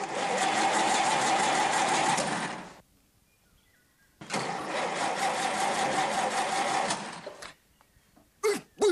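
A car engine runs in two loud, sustained roaring stretches separated by a short pause, followed by a few brief, sharp noises.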